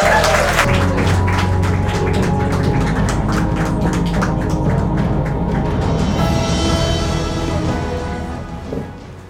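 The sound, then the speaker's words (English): A round of applause from the audience of a live adventure game at the break: steady, even clapping that holds throughout and fades near the end. “So a big round of applause for all of our adventurers.”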